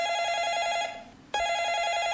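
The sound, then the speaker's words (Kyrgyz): A telephone rings at home with a bright, buzzy electronic tone. One ring fades into a short pause, and then a second ring starts abruptly and continues to the end. “Бактаттуу окуучу үйүндө отурганда телефон шыңгырайт.”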